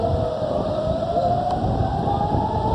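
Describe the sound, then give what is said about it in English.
Air-raid sirens wail in Israel during a Hezbollah rocket attack, one steady, continuous tone that climbs slowly in pitch and holds loud over a noisy, rumbling background. “sirens blaring as citizens rush into bomb shelters”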